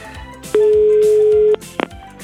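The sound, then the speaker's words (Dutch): A telephone being dialed to call a prison: one steady beep lasting about a second over a musical background, followed by a couple of brief clicks. “Oké, ik ga even bellen met de gevangenis.”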